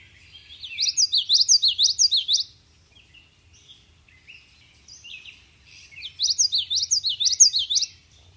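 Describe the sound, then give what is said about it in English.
Common yellowthroat song: two bouts of rapid, high-pitched repeated whistled phrases, each lasting about two seconds, separated by a quiet gap with only faint low rumble beneath. “That call has also been described as loud, spunky, distinct. It's been further described as a whittichy, whittichy, whittichy, or looky here, looky here, looky here. The call of the common yellow throat is unmistakable.”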